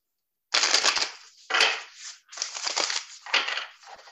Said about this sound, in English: All right, I'll pull a card for you from here.